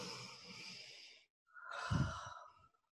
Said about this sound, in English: Sit up really nice and straight. Take a big, deep breath in.